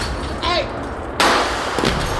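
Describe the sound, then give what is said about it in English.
A real gunshot, recorded on a phone during a shooting, bursts in suddenly as a loud, sharp blast with a ringing tail, after a brief voice and followed by a fainter knock. “Those are real fucking gunshots. It took me a while, Joey, to wonder if that was a reenactment. No, that was the real audio from Raheem's phone.”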